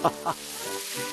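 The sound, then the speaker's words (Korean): Pork belly grilling with bracken frying in the rendered fat gives a steady, dense sizzle, opening with two brief louder pops or spatters before settling into continuous crackling. “이거 기름 나오는 걸로 고사리 볶아니까 맛있다.”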